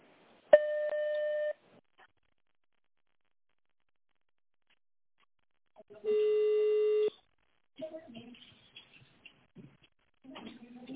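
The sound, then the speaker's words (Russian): Telephone tones while an extension number is dialed: two separate steady electronic beeps, each about a second long and set apart by silence, followed by faint voices on the line. “наберите внутренний номер.”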